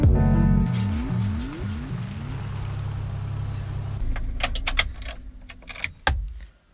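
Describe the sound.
A car pulls up and parks outside a house: a low engine hum with a few sweeping pitch changes settles to an idle, then cuts out, followed by a few sharp clicks and rattles.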